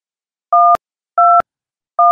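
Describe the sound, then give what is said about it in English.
Telephone keypad dialing tones sound as three steady two-pitch beeps, evenly spaced. Each beep ends in a short sharp click, with silence between them. “And the problem is that if I dial one wrong number, I have to start all over again. So that's why I am taking my time. I'm trying to make sure that I dial the correct numbers.”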